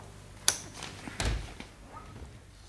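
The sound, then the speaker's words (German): A safe door being opened in a German radio play: a sharp click, then a dull, heavy thunk followed by a few lighter knocks, all fairly faint against quiet background. “Craig, achte doch bitte auf die Kombination, wenn John jetzt gleich den Safe öffnet, damit wir das Ding später ausräumen können.”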